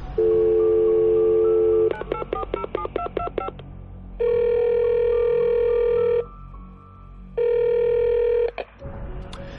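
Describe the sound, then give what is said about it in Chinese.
A telephone is dialed: a steady dial tone, then a rapid run of many keypad beeps, then two long ringback tones with a short gap between them. “盯着照片看了几秒，孟昭给张朝拨了个电话。”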